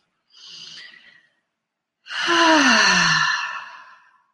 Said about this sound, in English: And you can take a deep breath on that.